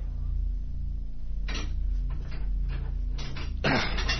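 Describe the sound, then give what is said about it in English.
A metal port door at a morgue is wrenched open: several clunks and rattling knocks sound over a low steady hum, ending in a louder, rougher burst. “Approaching the morgue, Blanchard wrenches open the port.”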